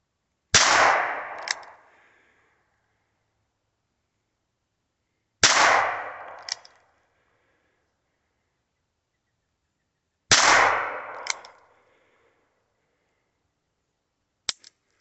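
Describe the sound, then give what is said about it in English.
Single-action pistol shots: three loud cracks spaced about five seconds apart, each followed by a shorter sharp crack, then one brief click near the end. “It's a single action pistol. There's that one.”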